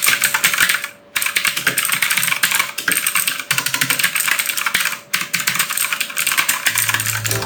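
Blue mechanical keyboard switches clack loudly in fast, continuous typing. Each keystroke gives a sharp click, with brief pauses in the stream of presses.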